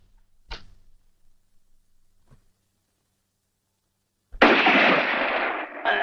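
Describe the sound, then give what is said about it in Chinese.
A gunshot in a radio drama, a sharp single crack followed by a faint click. Later comes a loud, sustained rushing burst of noise. “这一枪是你打的？”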